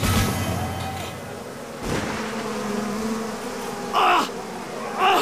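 Buzzing swarm of stinging insects attacking loggers at a jungle camp: a dense, steady drone with a faint tonal hum, broken by a few louder bursts near the end.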